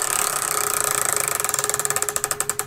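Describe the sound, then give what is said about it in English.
A prize wheel spins, its pointer ticking rapidly against the pegs. The clicks slow steadily and grow more distinct and spaced over nearly three seconds, with no voices. “spin the wheel”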